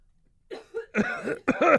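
Coughing and sputtering after inhaling spit: a few short, rough, voiced bursts in quick succession, the last ones longer and louder.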